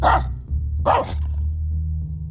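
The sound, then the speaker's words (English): A dog barks twice, two sharp, loud barks about a second apart, over a continuous low rumbling hum. “He will find out why his dog is barking.”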